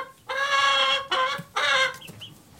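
A hen gives two loud, drawn-out clucking calls with a harsh, buzzy tone, separated by a short gap, then a couple of faint short peeps.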